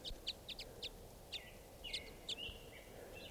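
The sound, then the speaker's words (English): Flock of five or six type five birds foraging on buds in aspens. Many short, sharp, high chirps repeat at irregular intervals, faint and overlapping, over a low background hiss. “So recording, there's a flock of five or six type fives right here in the aspens.”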